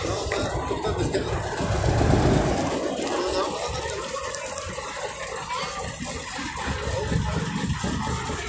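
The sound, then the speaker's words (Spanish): Trucks towing floats rumble past at a May Day Labour Day parade in Dolores Hidalgo, a deep engine drone that swells early on and then settles into a steadier, lower rumble with a busy street wash on top. “Sí, ya se acabó, ya no hay contingente, solamente son trailers que están pasando.”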